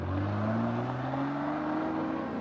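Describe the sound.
A car drives off, giving a steady low engine drone whose pitch climbs slightly as it goes, with no voices.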